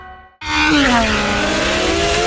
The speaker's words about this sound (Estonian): Pärnus Porsche Ringrajal , kus kihutavad regiooni kiiremad autod ja mootorrattad